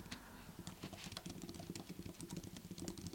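Touch typing with all ten fingers on a computer keyboard, a fast, steady stream of faint, soft clicking keystrokes throughout.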